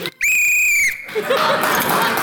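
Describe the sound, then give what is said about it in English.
A shrill referee's whistle sounds in one long, steady, loud blast lasting under a second. A dense wash of noisy sound follows it. “So now I got to blow the whistle to say yes”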